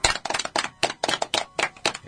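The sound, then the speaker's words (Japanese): Clapping in short rhythmic bursts, about eight clusters of quick claps separated by brief gaps, crisp and evenly paced with no talking. “じゃあ改めて拍手。”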